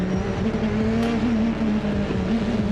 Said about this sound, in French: Là, j'ai changé la position pour avoir moins de temps de réponse avec le turbo. Et ça accélère encore plus fort.